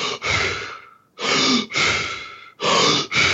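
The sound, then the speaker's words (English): Fast, deep breathing in a hyperventilation demonstration: loud, forceful in-and-out breaths in quick succession, with brief gaps between them and no talking. “And what he's doing is hyperventilation, which means fast breathing. Sometimes it's called superventilation. Sometimes it's called controlled superventilation. The terminology is all over the place. But what you do is you breathe fast like this.”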